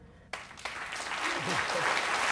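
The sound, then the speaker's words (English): Attendees applauding in a lecture hall at the end of a talk: clapping starts abruptly after a moment of quiet and swells into sustained, dense applause, with a voice briefly heard over it. “Sitting in the lecture hall, Ray stirs from sleep as the attendees applaud around him.”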